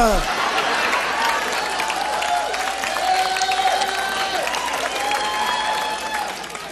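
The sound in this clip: An audience applauds and cheers, with dense, loud clapping that stays steady throughout and shouted voices rising over it.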